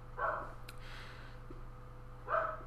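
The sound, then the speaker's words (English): A dog barks twice, two short mid-pitched yaps about two seconds apart, over a steady low electrical hum. “Dogs. Never get a dog.”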